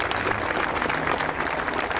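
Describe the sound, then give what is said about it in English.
Crowds applaud at a young journalist's funeral in Belfast, a dense, steady wash of clapping that holds at an even level throughout. “while the Belfast crowds gave their applause for a young journalist killed doing her job.”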